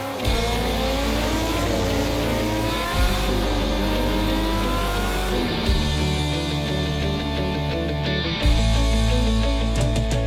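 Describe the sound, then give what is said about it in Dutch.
Loud racing motorcycle engines roar at the annual TT motorcycle race in Assen, held in June: a dense, continuous, layered drone whose pitch shifts up and down as machines accelerate and change gear, with no voices. “Verliefd op het motorgeluid. En dan bedoelt Ben Oevermans vooral het geluid van de TT in Assen. De jaarlijkse motorrace in juni.”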